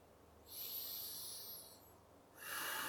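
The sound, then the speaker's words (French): Deep breaths taken while sitting cross-legged for a relaxation exercise: one long, airy breath, then a pause, then the start of another, both soft and hissing with no talk. “vous commencez par prendre quelques grandes respirations.”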